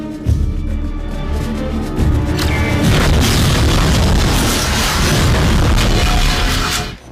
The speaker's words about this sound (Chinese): 简妮只是吓唬吓唬乔尼，但是他的同事却引爆了炸弹